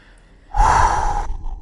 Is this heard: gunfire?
no

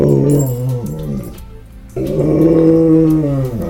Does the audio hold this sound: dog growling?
yes

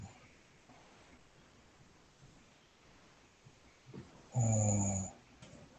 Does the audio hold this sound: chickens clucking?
no

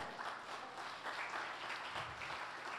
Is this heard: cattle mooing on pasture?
no

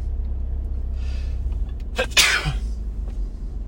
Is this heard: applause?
no

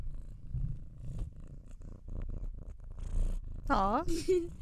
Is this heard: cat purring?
yes

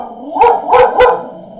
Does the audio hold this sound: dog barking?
yes

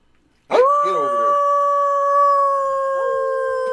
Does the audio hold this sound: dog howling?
yes

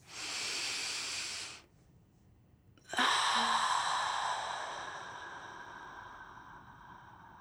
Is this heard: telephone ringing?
no

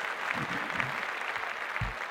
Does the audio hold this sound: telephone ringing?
no

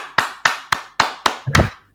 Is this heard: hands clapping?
yes

